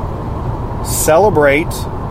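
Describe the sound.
Car interior noise while riding in a car, a steady low rumble running throughout beneath a voice speaking.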